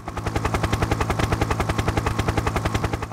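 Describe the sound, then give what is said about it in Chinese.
A helicopter flies on a rescue mission for a black rhino. Its rotor makes a rapid, steady, loud thumping chop that runs continuously with no voices. “黑犀牛 BB 听见直升机飞行的声音”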